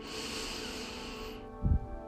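A deep inhalation during a guided breathing exercise, heard as a steady breathy hiss lasting over a second that cuts off, followed by a brief low thump.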